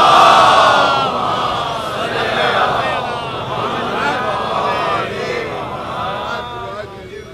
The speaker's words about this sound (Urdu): ایک اور بلندتر صلوات.